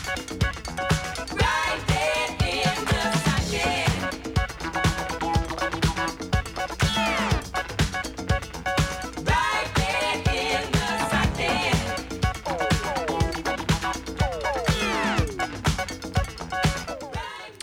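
A dance record plays with a break section: a dense, driving groove with a steady pulsing beat and layered instruments, holding an even loudness throughout.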